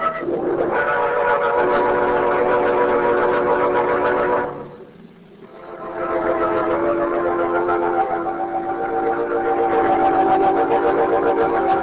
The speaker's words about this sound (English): It's a train